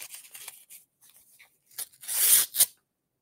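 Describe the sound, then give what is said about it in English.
A paper copy of a speech is torn up. Several light rustles and short rips lead into one loud, drawn-out tear, followed by a brief final rip. “I can tear up a ridiculous, insulting, divisive presidential speech.”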